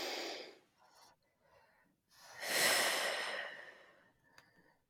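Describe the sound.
Deep breathing during a guided coaching exercise: a few soft breaths, then one long, loud sighing exhale lasting over a second, followed by quieter breaths.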